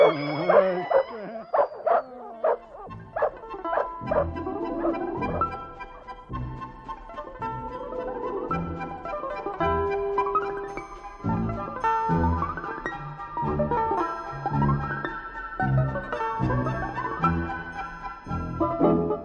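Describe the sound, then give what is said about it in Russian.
Dogs bark and yelp while chasing a stray mongrel, with many quick high yips, whining cries and rising-and-falling howls overlapping in a continuous, agitated stream, with no talk. “Приятели дождались, когда собаки скрылись из виду”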